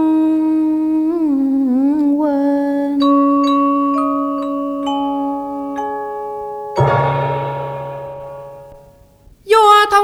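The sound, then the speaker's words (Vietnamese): A Buddhist temple bell strikes once after a melodic instrumental passage, a loud onset whose deep hum sustains and slowly fades. “chuông chùa Linh Sơn tự như chào đón người xưa trở lại xứ hoa đào.”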